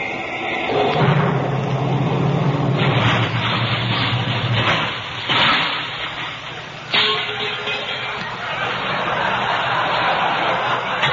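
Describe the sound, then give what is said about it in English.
A car engine starting, said to run on nitroglycerin, gives a loud, rough roaring rumble that runs throughout, with a couple of sudden bursts in the middle. “Who needs gasoline? I've got a tank full of nitroglycerin. What are you talking? Nitroglycerin? Just listen to this motor pump. when I step on the starter.”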